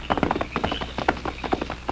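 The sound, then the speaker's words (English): Hooves of a white horse galloping at night: many rapid, rhythmic clip-clop hits at a steady, fairly loud level throughout. “Two Gun watched until the masked man and the white horse were lost in the night. Then he, too, got underway.”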